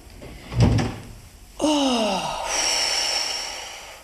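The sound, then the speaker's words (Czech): A waiting room door at a doctor's surgery is shut and locked: a dull thump comes first, then a long creak that slides downward in pitch, followed by a steady hiss. “Já musím zamknout čekárnu, aby nám sem už lidi nechodili.”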